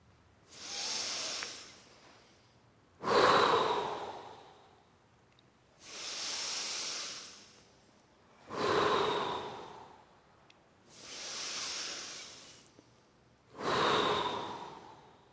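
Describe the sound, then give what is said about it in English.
Slow, deep integrative breathing from a guided breathing exercise: six long, airy breath sounds of even length, alternating in and out with short pauses between them. It is soft and heard alone, with no talk. “Okay, and the integrative breath.”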